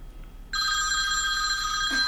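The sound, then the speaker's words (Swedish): A telephone rings, a bright, steady electronic trill that starts after a brief quiet and holds without a break to the end. “Det ringer din telefon här.”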